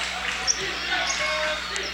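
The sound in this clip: A basketball is dribbled during a women's basketball game, a few soft bounces barely standing out beneath steady crowd noise and voices.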